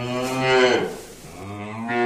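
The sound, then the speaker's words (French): A bull moos in long, low, drawn-out calls: one swells and fades, then a second begins. The tone is rich and harmonic, loud and alone with no talk. “J'ai peut-être un contact pour un taureau.”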